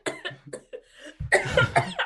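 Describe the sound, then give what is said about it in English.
Harsh coughing from someone choking after water went down the wrong way. A few short, broken coughs come first, then a louder, denser run of spluttering coughs. “oh, we're all bloody coughing. That water went down the wrong way.”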